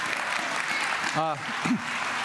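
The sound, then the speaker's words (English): Audience applause for a worship team at a church service, a steady wash of clapping throughout, with a brief voice heard over it. “Some applause for your amazing worship team.”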